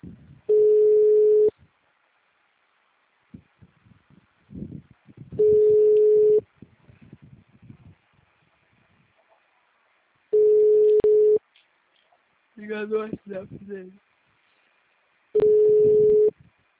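A telephone line tone after a dropped call: four long, steady, mid-pitched beeps spaced evenly several seconds apart. Faint clicks and noises fill the gaps, along with one short burst of mixed tones.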